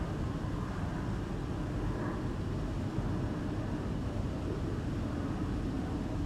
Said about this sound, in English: Can you hear the resonance of the aircraft passing overhead?